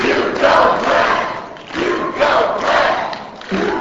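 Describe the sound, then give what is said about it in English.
A crowd cheers at an early morning Democratic rally for a newly elected congressperson, a sustained loud roar of many voices that swells and dips in waves throughout. “At an early morning Democratic rally, people of all races cheered for the congressperson elect.”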